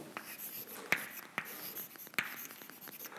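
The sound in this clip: Quiet scratching of writing on a board during a lecture, with a few sharp taps of the writing tool striking the surface between softer strokes.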